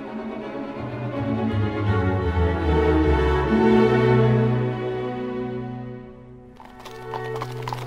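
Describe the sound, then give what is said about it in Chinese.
Hooves clip-clopping as a horse pulls a carriage through open farmland, a steady, continuous rhythmic beat that carries on through the whole stretch. “马修愉快地驾着马车，经过一望无际的农庄田园”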